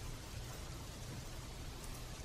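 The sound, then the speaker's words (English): Steady rain hiss, faint and even throughout, with no separate drops or gusts standing out. “So you head out into the rain and the wind is howling.”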